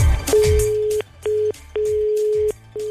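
A telephone ringback tone sounds as a dialed call goes unanswered: a steady mid-pitched hum in four on-off stretches of uneven length, separated by short gaps, after a brief burst of clatter at the start.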